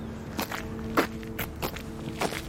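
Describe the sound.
Footsteps walking up a street on a windy, drizzly morning: a few crisp, evenly spaced footfalls in a steady walking rhythm, heard alone.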